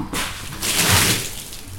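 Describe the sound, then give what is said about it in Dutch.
Water thrown onto a ceiling, walls and floor to rinse them makes a broad, hissing splash that surges up, then trails off into softer dripping noise. “Water aan het gooien op het plafond, op de muren, op de vloer, om ze uit te spoelen.”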